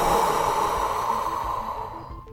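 A deep breath drawn in through the mouth makes a long, airy, rushing inhalation. It starts loud, then slowly fades and thins toward the end, with no talk over it.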